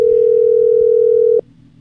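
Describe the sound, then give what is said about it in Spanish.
A telephone ringing tone sounds while a call is being placed: one steady, unbroken beep at a single mid pitch that lasts about a second and a half, then cuts off abruptly, leaving only faint background hiss. “Ahí está timbrando. Ojalá que me conteste.”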